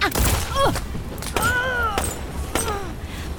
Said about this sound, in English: Suspect has opened fire!